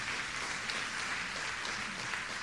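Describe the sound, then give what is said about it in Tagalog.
A church audience applauds in praise of the Lord, making a dense, even wash of clapping that holds steady without breaks for the whole stretch. “Pwede pong palakpakan natin ang Panginoon.”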